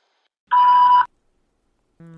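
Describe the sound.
A voicemail beep: a single steady electronic tone lasting about half a second, followed by silence, then a low sound begins just before the end.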